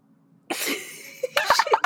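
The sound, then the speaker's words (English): A single sneeze bursts out sharply after a moment of near silence, a broad, noisy blast of breath. Brief voice sounds follow. “I just sneezed.”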